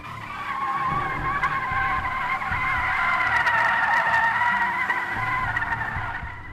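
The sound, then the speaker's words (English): A car skids while being driven, with one long continuous tire squeal that holds a steady high whine for several seconds over a low engine rumble. “watch where you're driving. We almost hit that wall.”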